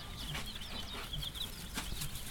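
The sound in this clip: Black chicks peeping at a farm supply store, faint high chirps repeated over a soft, noisy background.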